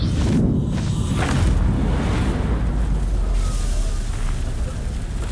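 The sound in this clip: A roaring fire in purgatory, an audio drama effect: a continuous, loud, deep rumble with a broad rushing hiss, holding steady for the whole stretch.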